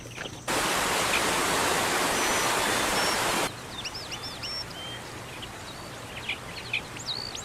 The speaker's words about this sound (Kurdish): سەیرکەن، بیرتانە پێم گوتن ڕووبارێک هەیە؟ ئەم ڕووبارە بەناو دارستانەکە تێپەڕ دەبێت.